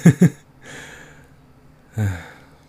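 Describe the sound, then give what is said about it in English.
A person coughing: two sharp, loud coughs in quick succession, a soft breath, then a third heavier, lower cough after a pause. “I gotta get this weird cough coming.”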